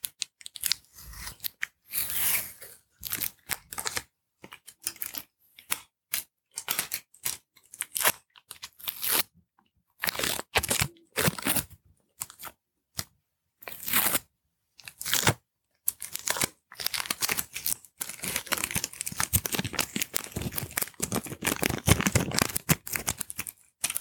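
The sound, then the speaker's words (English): Sellotape pulled off the roll and torn to seal cardboard boxes: many short, crackly rasps in irregular bursts, ending in a longer, denser stretch of ripping and scraping, with no talk. “What we're going to do is just seal them up with another strand of sellotape.”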